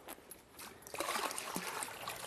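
Liquid poured into a basin, a steady trickling splash that swells and thickens after the first second and keeps running to the end.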